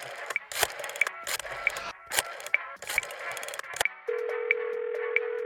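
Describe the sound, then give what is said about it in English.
Rotary dial landline telephone being dialed: bursts of quick mechanical ticking clicks with short gaps between them, then a steady, unbroken tone that continues to the end. “do I even still have a landline? Here. Oh, God. Rotary dial? Are you kidding?”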